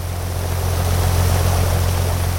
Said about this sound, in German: Der Hang bekommt eine Dusche verpasst, damit alles schön nass ist und gut rutscht.